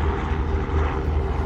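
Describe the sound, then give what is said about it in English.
A helicopter flies overhead, its loud, steady engine and rotor roar filling the whole short stretch without a break. “I think I've got a chopper overhead”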